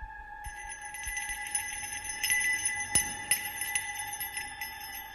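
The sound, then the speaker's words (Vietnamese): A small bell hanging on a coffin at a funeral jingles over and over, a faint sustained metallic ringing with many light, uneven strikes. “cái chuông ở trên quan tài tự nhiên chẳng có ai động vào mà đổ cành ra, rồi sau đó cứ rung lên leng ca leng keng.”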